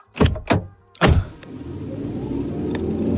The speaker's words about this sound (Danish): En elbil. Ja, det kan du godt høre.